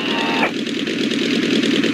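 A light aircraft engine is throttled back to 1500 on landing approach with flaps at 20 degrees. It is a loud, steady drone whose tone shifts lower early on and then holds level.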